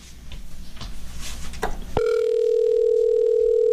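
A telephone dial tone sounds on a line while a call is being placed to a contest winner: a steady, unbroken tone begins abruptly after a click partway through, following a stretch of soft rustling.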